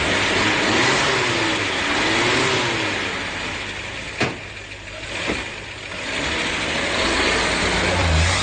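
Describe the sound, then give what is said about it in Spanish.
Engine of an old, battered cream-coloured Chevrolet 400 car with its motor intact: a steady, loud mid-pitched running rumble that sags briefly in the middle, marked by two short sharp clicks before swelling back up. “Es el turno de un Chevrolet 400 color crema, destartalado, pero con el motor intacto.”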